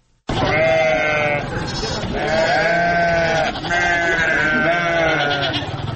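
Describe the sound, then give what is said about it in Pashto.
Gulabi goats, an Indian breed kept on a small farm in Kandahar, bleating loudly in a few long, wavering, overlapping calls that follow each other with hardly a pause. “د کندهار پټن ولسوالۍ کې د بزو یا وزو په دې کوچني فارم کې د ګلابي په نوم هندوستاني نسل څلويش بزې ساتل کیږي.”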